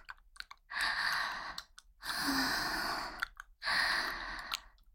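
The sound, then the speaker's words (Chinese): Ragged, disrupted breathing: three long, breathy, sighing breaths separated by short pauses, with small clicks in between, quiet and close. “连呼吸都被打乱了，听到了吗？”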